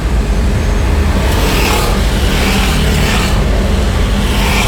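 Loud, continuous road traffic noise from a street where a Tayo bus was filmed, a dense steady roar with faint swells as vehicles move past.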